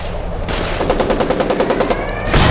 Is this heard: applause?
no